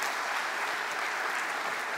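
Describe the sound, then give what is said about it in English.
Church audience applause welcoming a pastor to the stage, a dense, even roar of clapping that stays loud and steady throughout. “don't clap too long for him, he's not that cool.”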